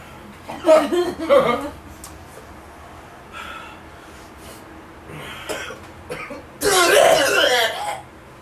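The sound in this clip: Coughing and throat clearing after accidentally inhaling some hot food. It comes in a few uneven bursts mixed with chuckles, and the last burst is the loudest.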